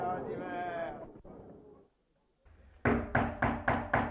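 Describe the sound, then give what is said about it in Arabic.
Knocking on a door: five sharp knocks in quick succession, loud and hollow, following a stretch of talk and a short silence. “انظر من بالباب. من الطارق؟ افتح، نحن حرس الأميرة.”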